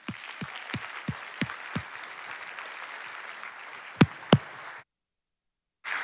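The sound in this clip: Audience applause welcoming a speaker: steady, dense clapping with a few sharper claps standing out, ending abruptly, then a brief burst of sound resumes after a short silence.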